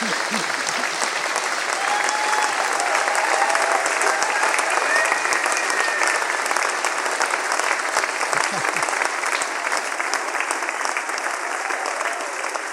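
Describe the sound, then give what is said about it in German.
Audience applause, a sustained, dense wash of many hands clapping at an even level throughout, without a clear build or fade. “Dafür kriegst du so einen Applaus.”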